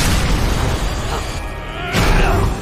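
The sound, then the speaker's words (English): Explosions set off by a sparking control panel make a loud, rumbling, continuous roar of booms that dips briefly and then swells again near the end. “The Riddler's cane smashes into a control panel, which sparks and causes a series of explosions.”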